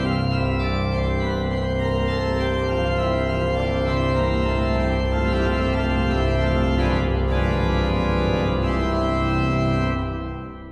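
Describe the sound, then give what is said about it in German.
Organ sounding rich, sustained chords with a dense stack of steady harmonics, held at a constant, full level for about ten seconds before cutting off, with no voices. “Und es war auch nicht die Orgel, die hört sich so an.”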